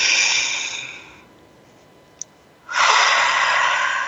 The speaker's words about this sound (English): Take a deep breath again.